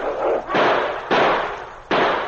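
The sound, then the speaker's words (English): Gunshots ring out during a wolf pack's attack on a lone gray wolf: several sharp, loud cracks at uneven intervals, each followed by a long, rumbling decay, with no voices. “But suddenly, shots rang out.”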